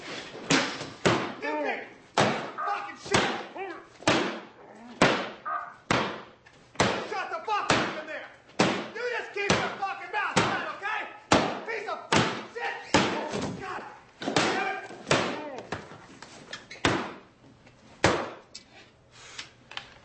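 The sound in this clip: Heavy banging from inside a locked car trunk: many loud, dull thuds and knocks come in a steady, rapid series that runs without pause from start to end.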